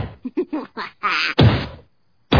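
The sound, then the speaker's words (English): Dull thumps of a head banging against a wall: a quick run of short knocks, then two longer, heavier impacts, a pause, and another hit starting at the end. “I'm banging my head. I'm going to make the lump even bigger.”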